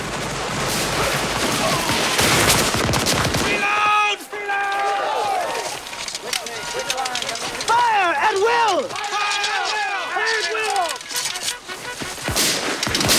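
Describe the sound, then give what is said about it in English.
Volleys of rifle fire crack between two armies about 50 meters apart, one of them Confederate: a dense roar of shots for about four seconds, then shouting voices over scattered gunfire. “With the two armies only about 50 meters apart, they fire at one another.”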